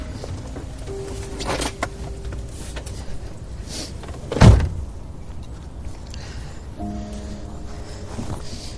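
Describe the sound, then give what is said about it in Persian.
A car door opening, with a single mechanical clunk near the middle over a quiet steady hum and faint tonal background. “بس در ماشینو باز کن برو بیرون.”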